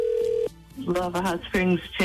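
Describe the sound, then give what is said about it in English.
A telephone tone sounds steadily for about half a second on an outgoing call to a chamber of commerce in Lava Hot Springs. A voice then answers and talk continues. “So I'm going to call them. I think they're open. Let's see if we can settle this with this phone call to the Lava Hot Springs Chamber of Commerce.”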